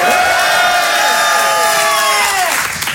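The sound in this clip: A live theatre audience at Le Grand Point Virgule cheers, whoops and applauds loudly and without a break, with shouted voices rising and falling over the clapping.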